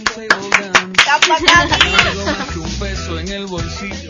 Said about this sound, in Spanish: Un aplauso.